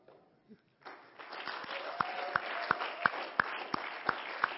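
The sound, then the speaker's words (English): A church audience claps during a Wednesday night service. After a brief quiet start the applause swells to a steady level, with louder claps falling into a regular rhythmic beat. “So it looks like we are going to have kids' life. So we're just going to clap and”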